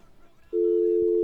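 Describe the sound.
A telephone tone after a call is cut off during a phone-in: a steady, single-pitched electronic tone begins abruptly partway through and holds unchanged to the end, following a stretch of faint background noise.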